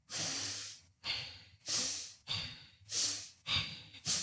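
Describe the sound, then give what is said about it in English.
Seven loud, breathy, even-paced breaths come in a steady rhythm during a pelvic movement demonstration for women's health, each a hissing rush of air with short pauses between. “And then you would incorporate a breath to it. So for example, okay, so now I'm going to demonstrate.”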